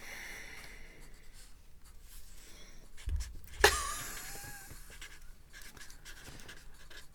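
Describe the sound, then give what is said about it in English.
Pens scratching quickly on paper as people write during a word game. The soft, continuous scratching has a louder scrape about midway, and no one talks. “They're writing feverishly.”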